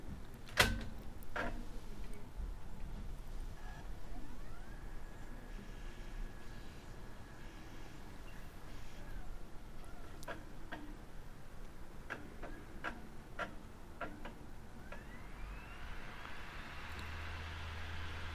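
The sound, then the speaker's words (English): A CD being inserted into a laptop's CD-ROM drive: quiet sharp clicks, then a faint rising whine as the disc spins up and holds a steady tone, more scattered clicks, and a second rising whir near the end. “So I have my WindowWise 7.5 CD right here, and I'm going to insert it into the laptop's CD-ROM drive.”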